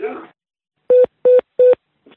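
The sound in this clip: Three short, even telephone keypad dialing tones sound at a steady pace after a brief burst of voice, followed by a faint trailing trace of another tone.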